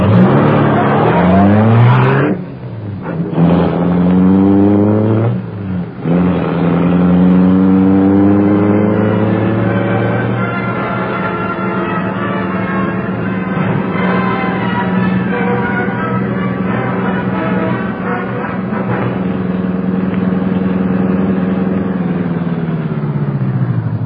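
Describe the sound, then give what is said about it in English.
A great car's engine roars into life and revs up through rising pitches, then settles into a loud, steady droning roar as the car speeds away. “The great car roared into life.”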